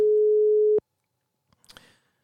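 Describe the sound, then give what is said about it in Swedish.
A single steady telephone line tone lasts just under a second as a call is placed to a healthcare coordinator one morning. Silence follows, then a brief faint rustle. “det passar väldigt bra att ringa till Elisabeth Löpare Johansson som är samordnare för nära vård på SKR, se om hon svarar den här förmiddagen”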